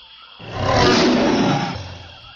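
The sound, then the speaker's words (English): A tiger roaring in one rough, broad, growling blast that swells over about a second, holds, then fades away, with no voices. “Grow the jungle more and more to help the tigers roar.”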